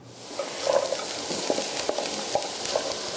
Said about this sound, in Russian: Когда веганские сосиски поджарились, можно добавить брокколи.